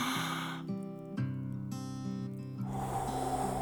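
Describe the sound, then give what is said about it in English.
A deep breath drawn in during a guided meditation: a long, airy inhale near the end, layered over soft, sustained music tones. “Let's draw that breath in now.”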